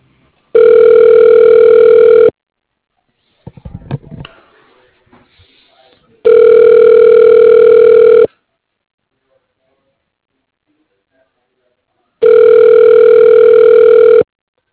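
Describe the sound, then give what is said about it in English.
Telephone line tones during a call transfer to a voicemail box: three long, steady buzzing tones of about two seconds each, evenly spaced, with brief crackly noise between the first two. “To cancel, press star. Wait while I transfer your call.”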